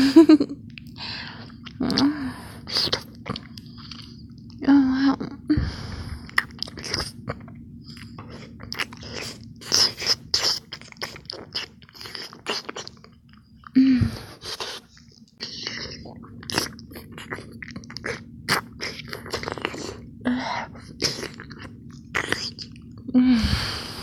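Crunchy biting and chewing of a food said to taste like a cupcake: many irregular crisp crunches and mouth sounds with short pauses, over a steady low hum.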